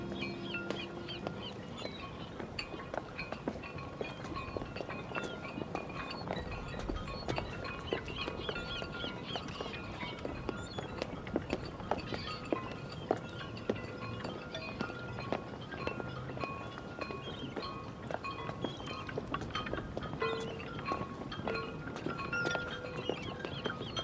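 Footsteps walking down a long pier on an old wharf toward a fisherman's bar, a dense, steady run of many footfalls with a hollow clip-clop character.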